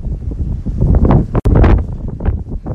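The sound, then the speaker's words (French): A strong wind gust blows snow down a residential street in a snowstorm beside a pickup truck. The roar is loud and buffets the microphone, surging in waves, with one very brief dropout midway. No one speaks. “Checkez-moi ça, la rafale.”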